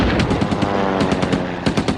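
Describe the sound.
Anti-aircraft guns fire at a low-flying bomber, a loud, dense drumming of rapid automatic shots packed into continuous bursts.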